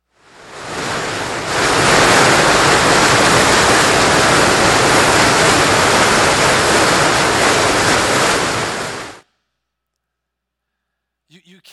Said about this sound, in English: When's the last time you were really close to a really big waterfall? It's like deafening, isn't it? It's so loud. It sounds so loud.